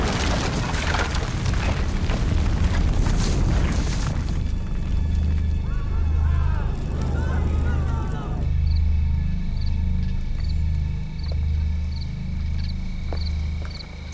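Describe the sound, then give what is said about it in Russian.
A box of dynamite explodes in a foreign film: a loud, broad roar lasts about four seconds, then fades into a lingering low rumble with faint high ticking. “Бросает ящик с динамитом. Взрыв.”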